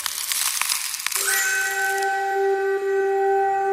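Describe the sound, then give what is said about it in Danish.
A quiz call-in signal: a brief noisy rushing swoosh gives way to a single bright bell-like ding that rings on as a sustained, slowly fading tone. “fordi at der kommer en lyd, som indikerer, at nu skal du ringe ind til os. Og lyden er denne her.”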